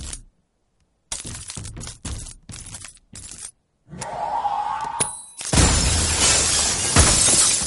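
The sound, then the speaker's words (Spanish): Glass cracks with a few sharp, separate snaps as a chair back is pressed into a pane, then breaks into a loud, sustained shattering crash that fills the end of the scene. “El cristal se raja.”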